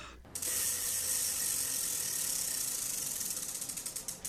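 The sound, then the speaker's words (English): A spinning prize wheel gives off a long run of rapid, steady clicking. It starts abruptly after a short quiet moment, and the individual clicks grow more distinct toward the end. “All right, you want to spin the wheel of...”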